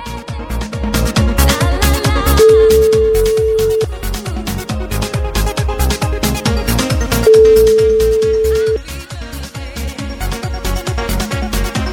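Ringback tone of an outgoing telephone call: two long, steady, low-pitched tones separated by a pause, sounding over loud, rhythmic, beat-driven music.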